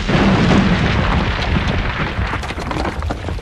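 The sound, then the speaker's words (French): TNT blows up a senate building in a loud, continuous roaring blast, a dense rumbling boom that fills the whole stretch without letup. “J'ai toujours rêvé de faire exploser le Sénat. Et puis, il me restait un peu de TNT.”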